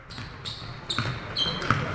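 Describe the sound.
A basketball is dribbled on court during a game, with a few sharp, thudding bounces spaced irregularly over a low hum of crowd and arena noise.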